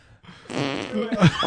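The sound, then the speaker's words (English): A fart: after a short quiet moment comes one drawn-out, buzzy, fairly loud blast that lasts over a second and wobbles lower near its end. “All these farts are coming from him.”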